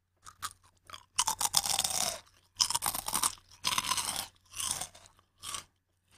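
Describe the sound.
Crisp crunching as someone chews a crunchy, spicy yuzu-flavoured snack, several bursts of brittle cracking and grinding separated by short pauses, quiet and close with no talking.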